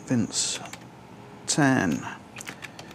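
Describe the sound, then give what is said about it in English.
Typing on a computer keyboard: a few short bursts of clicking keys, mixed with brief voiced sounds. “I'm actually going to type this one in.”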